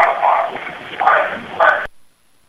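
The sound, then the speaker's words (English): Dog-like barking in an EVP recording from a paranormal investigation: three muffled, narrow-band barks over a steady hiss, cut off abruptly near the end. “there were no dogs in the investigation or anything else. And this is pretty clear, even for me, and I'm very critical of EVP. So play that one more time, please.”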